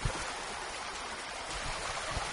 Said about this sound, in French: Il s'agit de la rivière Gasenyi qui déborde parfois pour couler vers les maisons de Gahahe, en commune Mutimbuzi de la province Bujumbura, en cas de forte pluie.